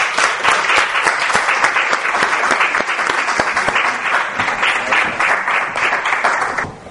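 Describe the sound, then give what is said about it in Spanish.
An audience applauds at an award presentation with dense, steady clapping that stays loud for about seven seconds and then fades off at the end. “¡Un aplauso!”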